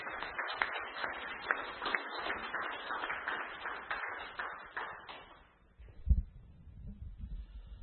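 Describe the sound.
Applause from an audience welcoming a speaker before a meditation session: faint, thin, band-limited clapping that runs for about five seconds, then dies away, leaving a single dull thump and quiet noise.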